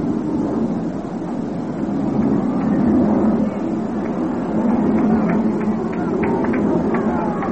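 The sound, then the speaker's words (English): An airplane flying over a baseball game that stops play: a steady, loud, low roaring drone that holds through the whole stretch. “He calls down and backs out until a plane gets by. Time called because of aircraft.”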